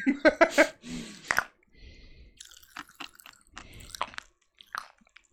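Someone eats Pop Rocks popping candy, an American snack. A few crunchy chews come first, then many faint, irregular crackles and pops as the candy fizzes in the mouth.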